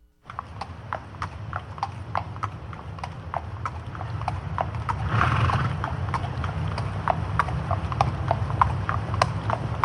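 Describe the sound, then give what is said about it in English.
Coconut shells clopped together imitate horse hooves in many crisp, hollow knocks at a steady trotting rhythm over a low continuous hum. “Well, that's clearly a horse. Yes. And it's coconuts. Yes, it's coconuts.”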